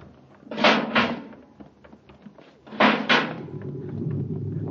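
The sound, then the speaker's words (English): A spaceship's inner hatch opening: two double bursts of hissing clunks, separated by a short pause, followed by a low steady rumble. “Full repeller ray. Quick now, open the inner hatch.”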